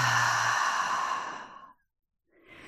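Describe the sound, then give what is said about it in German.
A long, breathy exhale through an open mouth during a breathing exercise fades out into silence, and a soft breath begins at the end. “gib dem Atem Raum, öffne den Mund, atme vollständig aus”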